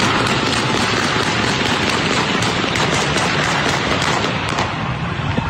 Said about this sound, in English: I should point out that's semi-auto. That's not full auto.